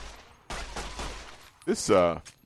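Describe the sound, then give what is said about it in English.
Rapid gunfire from a fast-firing gun in a video game: a quick burst of sharp, closely spaced shots. “this gun fires incredibly fast, but then kind of reloads at more or less normal speed. So I can empty the clip just amazingly quickly”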